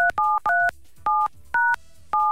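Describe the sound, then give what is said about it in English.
Telephone keypad tones as a number is dialled: six loud, clean dual-pitched beeps in an uneven rhythm with short quiet gaps between them. “Phone numbers. Call this number here.”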